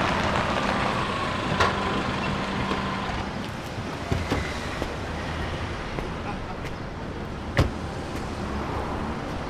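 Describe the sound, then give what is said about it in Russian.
A car on a city street on a sunny day, pulling up with a steady low engine rumble under broad road noise. A few short knocks and clicks stand out along the way. “Подъезжает машина, из которой выходит парень в джинсах, футболке и жилетке.”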